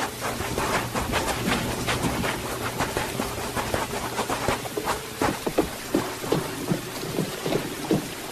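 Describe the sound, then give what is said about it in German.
Thunder and heavy rain as a storm breaks: a continuous rain hiss with low rolling rumbles and many sharp crackling thunder strikes, loud and alone without voices. “Gleich bricht der Sturm los.”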